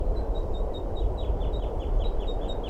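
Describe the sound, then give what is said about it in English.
Male bird giving flight calls: a steady, rapid series of many short, high chips above a constant rumbling background. “And the male behind her giving flight calls.”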